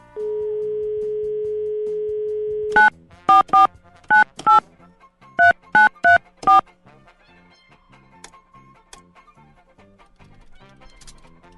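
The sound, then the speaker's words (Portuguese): A telephone plays a steady dial tone, then keypad dialing tones: a quick series of short, sharp beeps in small irregular groups. Faint low background noise follows once the dialing ends. “Eu vou ligar pra esse cara aqui, só um minutinho.”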